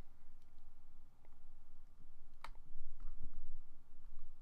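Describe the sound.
A few sharp, light clicks of a computer mouse, spaced irregularly over faint steady background noise, with one click standing out louder than the others.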